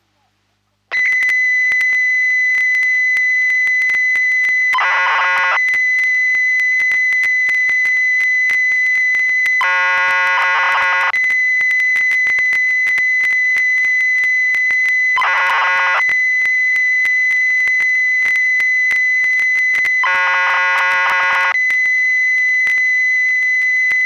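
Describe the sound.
Famicom BASIC program data loading from a cassette data recorder: a loud, steady high-pitched whine runs throughout, broken at regular intervals by four short bursts of harsher, buzzier data tones.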